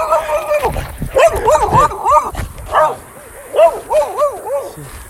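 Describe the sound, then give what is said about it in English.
A dog barks and yips nearby in quick, high, arching bursts that come in short clusters, loud and repeated over several seconds. “Sorry, there was just another dog that just came to me, and I had to stick out my backpack to make sure it didn't bite me.”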